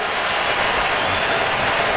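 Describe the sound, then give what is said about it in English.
A baseball crowd rises to its feet cheering after the Padres tie the game at one against a Philadelphia pitcher's shutout streak, a loud, sustained, dense roar of cheers and clapping that holds steady throughout. “And the Padres have tied the game up at one. And Christopher Sanchez is finally allowed a run after 50 and two-thirds innings. And here comes the crowd to their feet.”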